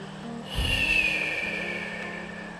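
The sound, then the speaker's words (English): A single breath in a paced breathing exercise: a soft airy rush with a faint whistling edge that swells, lingers and slowly thins out over a low steady hum. “Breath three. Hold. Expel.”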